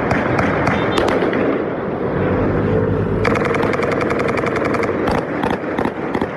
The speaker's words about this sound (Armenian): Կրակոցների ձայներ այսօր էլ լսվել են, բայց ոչ թե որևէ մեկի ուղղությամբ, այլ դեպի երկինք, ի նշան հրադադարի։